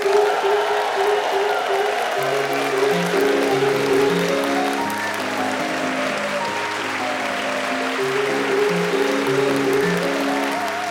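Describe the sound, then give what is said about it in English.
The Minute Waltz playing as a theme tune, a brisk melody of quick stepping notes running over low held tones, with a constant layer of audience applause beneath the music. “Sue Perkins here, and as the minute waltz fades away, what a joy to welcome you to another round of Just a Minute.”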